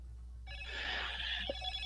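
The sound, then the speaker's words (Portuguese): A telephone bell rings faintly and steadily, starting after a brief quiet moment. “é telefone chegando de todo canto, Vilamar, é telefone que vem de todo lugar”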